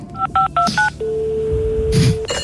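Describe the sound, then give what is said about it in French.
A telephone number is dialed on a keypad: four short, distinct beeps in quick succession, followed by a longer steady tone and a faint click at the end. “Nous appelons un ami.”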